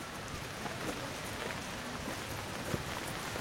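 Rain falling outdoors, a steady, diffuse patter of drops that forms an even wash of noise with a few slightly sharper drop hits, unbroken and moderate in level.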